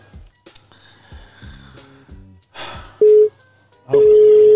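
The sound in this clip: An unanswered phone call gives two steady mid-pitched tones, a short one and then a longer one cut off at the end, after a few seconds of quieter, scattered sounds.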